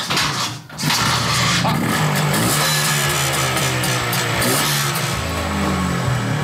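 An old, original petrol engine is started with the choke out. It catches within about a second and then runs loud and steady with an even, low throbbing idle.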